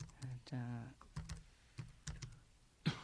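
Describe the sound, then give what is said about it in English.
Keys clatter on a computer keyboard as a search is typed in: short bursts of crisp clicks with gaps between them, fairly faint, and a voice speaks briefly partway through. “So I've typed it in and it's now searching.”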